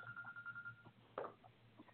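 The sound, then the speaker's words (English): Faint electronic phone ringing: a steady, pulsing tone runs for under a second, followed by a brief, brighter alert chirp, over a low background hum. “I'm tripping. I got phones ringing, text messages going off.”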